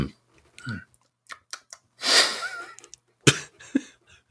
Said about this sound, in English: Here's the sound of me building with Legos. Click, click.